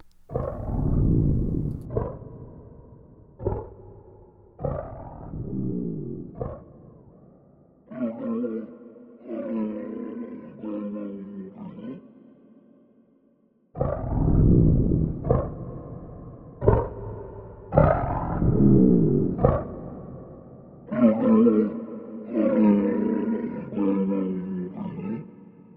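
A designed cave troll roar: a long series of deep, rumbling, growling bellows in repeated bursts, broken by a short pause midway before the roaring resumes, loud and raw throughout.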